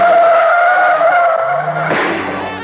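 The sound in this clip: Tires squeal loudly as a car accelerates hard during a getaway from pursuers: a sustained high, tonal screech that breaks near the end into a rougher, broader burst of noise.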